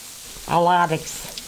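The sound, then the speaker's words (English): Soft, steady sizzle of bread frying in a pan. A short tonal sound rises briefly over the hiss partway through, and the sizzle continues after it. “We're making million-dollar soup and fried bread.”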